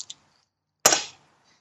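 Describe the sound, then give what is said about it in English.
A single gunshot sound effect in a tabletop horror role-playing game: one sharp, bright crack with a short decaying tail, preceded by two faint clicks. “Well, I'm going to try and shoot him.”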